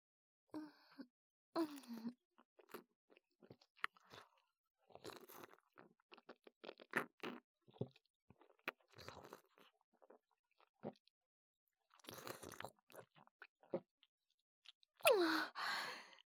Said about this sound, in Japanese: お口にラムネ含んで。美味しそう。いただきまーす。